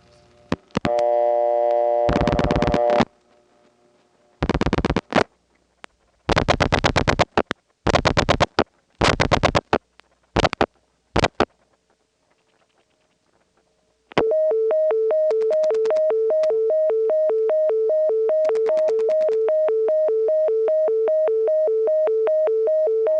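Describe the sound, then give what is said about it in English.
Bell System PBX tone for invalid dialing sequences, reached on an outside call through an ESS office: a loud, steady, rapidly pulsing tone that runs to the end, after several earlier short bursts of signaling and a silent gap. “the Bell system introduced a new tone to the network. It was used within the PBX for invalid dialing sequences. On very rare occasions, you could get it from the outside, as in the following call”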